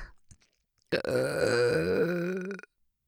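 A long, loud, deliberate burp, a single deep rumbling belch lasting nearly two seconds before cutting off abruptly, with only faint breathy sounds before it.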